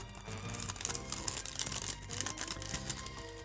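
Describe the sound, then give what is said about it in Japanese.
A small plastic bag holding stickers is opened, giving quiet crinkles and sharp little clicks of plastic scattered across the whole stretch, with soft music in the background. “小さい袋がその、もう一つのところについております。ちょっと開けてみますね。”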